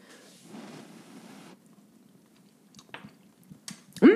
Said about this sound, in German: Nehme ich mal ein kleines Löffelchen, koste mal die Soße. Ich nehme ein kleines bisschen,